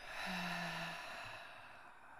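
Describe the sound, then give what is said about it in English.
A deep breath in and out during a relaxation exercise, heard as one soft, continuous airy rush with a faint low hum early on and no talking. “Taking a deep breath in. And an even deeper breath out. Let it all go.”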